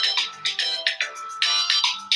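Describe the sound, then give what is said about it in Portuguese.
An incoming Instagram call rings on a phone as many short, bright electronic tone pulses in a quick repeating melodic pattern, fairly loud and alone. “Eu não sei como é que as pessoas conseguem ligar pra gente do Instagram. Pessoas, não liguem para mim essa hora, por favor.”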